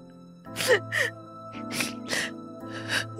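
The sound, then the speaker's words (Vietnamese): A girl cries in a few gasping, whimpering sobs, each a short strained voiced burst, over a steady tonal background that runs throughout. “Sao con khóc?”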